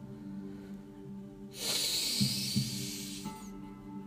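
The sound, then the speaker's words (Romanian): A deep inhale through the nose during a guided breathing meditation, a smooth breathy hiss lasting about two seconds over a soft, steady tonal background hum. “Și ușor și gentil te invit să inspiri aer adânc pe nas.”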